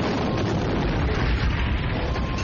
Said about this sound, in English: Intense light exploded behind the rectangular viewports and shook the bridge hard enough to rattle a droid off its feet.